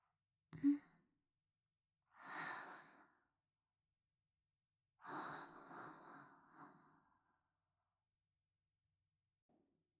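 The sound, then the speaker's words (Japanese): A deep breath: two soft, breathy rushes of air, the first short and the second longer and drawn out, with a small click just before them and quiet in between. “深呼吸。”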